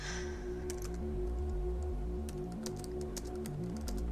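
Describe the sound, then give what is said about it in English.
Typing on a laptop keyboard, a run of irregular, crisp key clicks over a steady low background hum. “In her room, Gwen works at her laptop. The blue light of the screen illuminates her as she types.”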